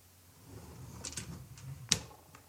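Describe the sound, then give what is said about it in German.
A Nespresso coffee machine is closed over a capsule: some soft plastic rustling, then a single sharp, bright click. “Schließen einer Nespresso-Maschine mit Kapsel kommt jetzt.”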